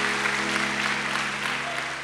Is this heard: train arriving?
no

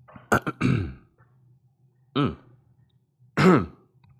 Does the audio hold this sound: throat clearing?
yes

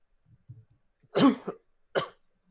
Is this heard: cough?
yes

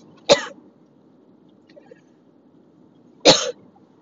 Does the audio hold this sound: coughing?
yes

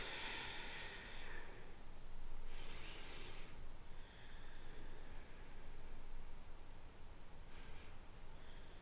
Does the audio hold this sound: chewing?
no

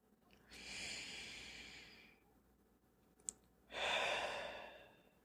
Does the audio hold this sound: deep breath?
yes

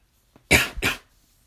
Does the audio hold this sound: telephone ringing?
no

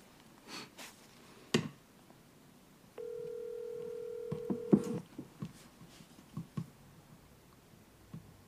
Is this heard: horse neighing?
no

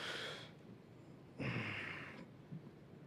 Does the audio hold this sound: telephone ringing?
no

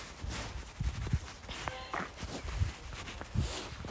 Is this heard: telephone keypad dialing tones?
no

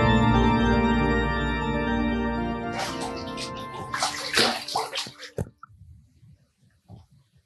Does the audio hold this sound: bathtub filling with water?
yes

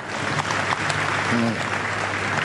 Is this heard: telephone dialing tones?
no

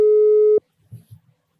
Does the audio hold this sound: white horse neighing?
no

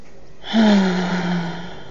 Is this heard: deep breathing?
yes

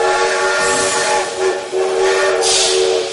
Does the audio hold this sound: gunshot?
no

